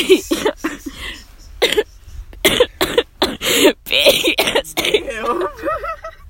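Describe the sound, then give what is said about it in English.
Coughing from a sick person: many harsh bursts in quick, irregular succession, loud and clustered, ending in a wavering voiced sound. “I start laughing and then I start coughing more.”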